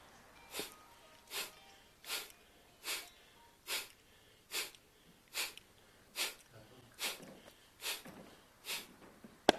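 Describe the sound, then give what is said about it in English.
Kapalbhati yoga breathing: twelve short, forceful exhalations, faint and evenly spaced at a steady rhythm, each a sharp breathy puff with quiet pauses between. “So Kapalbhati is only give more pressure to the exhalation.”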